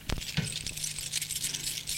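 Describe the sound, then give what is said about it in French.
A bunch of keys is taken from a handbag off a hallway table, giving a sharp metallic clink at the start and then light, scattered jingling and rattling. “Prend sur une table qui est dans le couloir un sac à main et en sort un trousseau de clés.”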